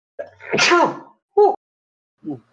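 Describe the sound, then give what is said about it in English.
A sneeze from a part of a wall in a video game: a drawn-out voiced intake that bursts into a loud sneeze, followed by two brief, fainter vocal sounds. “moment. Makes a part of the wall sneeze.”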